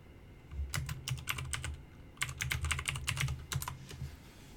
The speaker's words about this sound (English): Now, hold on a sec, I want to type one last thing.